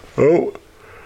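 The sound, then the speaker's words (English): A short voiced yawn, a wavering vocal groan lasting under half a second and rising then easing off, followed by a faint breathy tail. “yawn number one. Remember, I used to count my yawns.”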